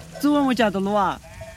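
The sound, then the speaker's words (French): Sheep bleating: one of the few sheep a peasant couple raises in a village. Two loud, wavering, nasal bleats follow each other closely; the second is longer and quivers before it breaks off, leaving faint background noise. “À quelques kilomètres de là, autre village de paysans où ce couple élève quelques moutons pour survivre.”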